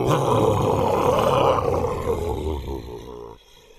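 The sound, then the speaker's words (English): A bear growls in a deep, rough, sustained roar. It stays loud and continuous for about three seconds, then fades out at the end, with no voices over it. “Thunder Bear rose up on his hind legs, pawing in the air, and growled,”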